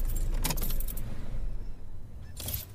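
Keys jangle as a car key is turned in the ignition: two bright metallic bursts of rattling, separated by a quieter stretch with a low, steady rumble underneath.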